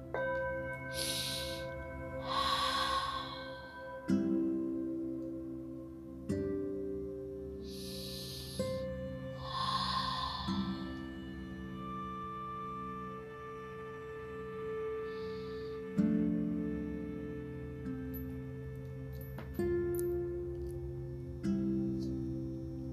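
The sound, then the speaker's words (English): A Tibetan singing bowl played at the start of a meditation session, struck several times with steady, overlapping ringing tones that sustain and slowly fade. Soft breathy noises come and go over the ringing. “I love my Tibetan bowl to start.”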